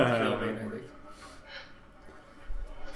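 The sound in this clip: A grandfather's sneeze in a comedy film scene: one loud, breathy burst at the start that drops away into quieter, murmuring sound.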